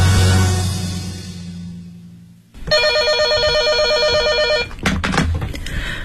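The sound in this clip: A telephone rings late at night with a bright, steady electronic trill lasting about two seconds. It begins after a low background sound fades to silence, and a few brief clicks follow.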